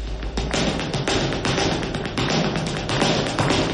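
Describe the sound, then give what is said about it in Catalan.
Rhythmic tapping from a flamenco dance show: many fast, sharp footwork taps in a driving, steady pattern, loud and with no voices. “És el so de l'espectacle de flamenc creat per la companyia tarragonina La Herreria”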